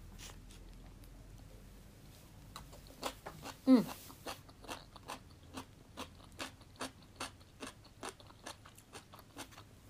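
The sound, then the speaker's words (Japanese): Crisp pickled daikon radish is bitten and chewed. One louder bite comes first, followed by many quiet, evenly spaced crunches in a steady chewing rhythm. “ちょっとパリパリ大根から食べよう一発目からパリパリ大根食べるっていうね。”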